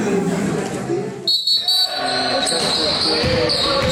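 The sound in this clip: A basketball bounces during a basketball game amid a dense wash of court noise, with people talking throughout.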